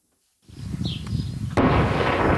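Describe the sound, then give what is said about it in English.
Shelling and gunfire from fighting between Israeli forces and Hezbollah in southern Lebanon: rumbling bursts of fire build from silence, then a sharp, loud blast cracks out and a dense, sustained roar of noise follows. “That is the sound of Lebanon's ceasefire today. As Israeli shelling and fighting by Hezbollah militants continues,”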